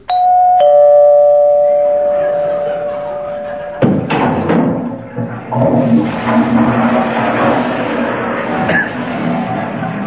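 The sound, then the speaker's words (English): A doorbell rings with a sustained chime lasting a few seconds, then gives way to a jumble of thumps and rumbling noise. “That was the Avon lady calling at a very inconvenient moment.”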